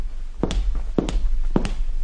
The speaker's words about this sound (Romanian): În jurul meu se află câteva facilități care mă fac mai bine înțeles. Oamenii merg pe parchet.